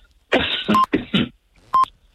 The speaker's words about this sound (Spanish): Ay, perdón, que tengo un poco de tos.